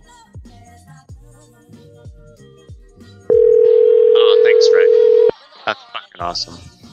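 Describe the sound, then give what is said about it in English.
A telephone dial tone sounds after the caller on the other end hangs up, a steady, loud, single-pitched tone lasting about two seconds, with softer sounds before and after it. “Oh, she hung right up.”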